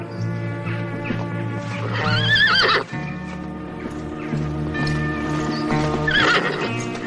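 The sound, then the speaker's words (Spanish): Horses whinny and their hooves clop as riders rein them to a halt in open countryside in a 1978 adventure film, with two rising, shrill neighs standing out over a steady, full background. “Estos frenan sus caballos y suben por unas montañas.”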